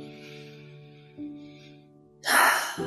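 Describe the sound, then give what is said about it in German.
A deep breath drawn in through the nose toward the belly: a breathy rush swells near the end over a steady, sustained musical drone, with no talk. “atme einmal tief durch die Nase in deinen Bauch ein.”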